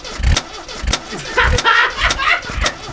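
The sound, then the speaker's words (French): A Harley-Davidson motorcycle engine is cranked by its starter, giving several low, heavy thumps at a fairly even rhythm, separated by mechanical whirring. “Ça, c'est la Harley Davidson. Voilà. Excusez-moi si je tremble. Je peux démarrer?”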